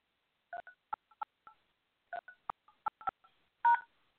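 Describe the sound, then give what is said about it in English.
Telephone keypad tones as a host PIN is entered into an automated phone line: a quick, uneven series of short, clean two-tone beeps in two bursts, ending with a longer, louder tone. “Please enter your host PIN. When finished, press the pound key.”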